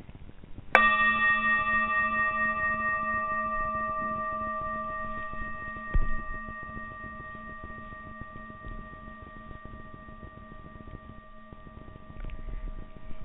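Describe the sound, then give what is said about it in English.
A bell is struck once and rings out with a bright tone and clear overtones that slowly fade over more than ten seconds, heard alone without talk. “But it's not, that impact is not going to end just when I hit the bell.”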